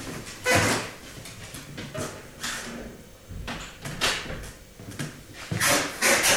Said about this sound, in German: Ich muss mal diese Kammertür zumachen.